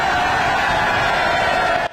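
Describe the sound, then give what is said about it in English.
A crowd screams and cheers for Nigel Farage at the Clacton election count, a loud, dense and continuous roar of voices that cuts off abruptly at the end. “You can see that trademark laughing smile of Nigel Farage there to a screaming crowd.”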